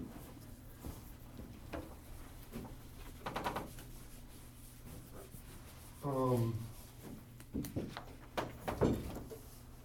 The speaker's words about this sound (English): Let me draw real quick a map of, like, Saudi Arabia here.